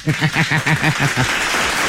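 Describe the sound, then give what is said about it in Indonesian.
Audience applause during a riddle quiz with children, steady, fairly loud clapping with a pulsing rhythm that fills the whole short clip. “Hai, tepuk sikit.”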